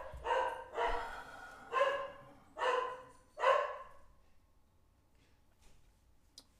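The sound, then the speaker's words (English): Dogs barking inside a house: five loud, evenly spaced barks in a steady rhythm, each harmonic and full, followed by a few seconds of near quiet with one faint click at the end. “Sorry about the dogs. Not a professional studio. Part of the ambiance in my house.”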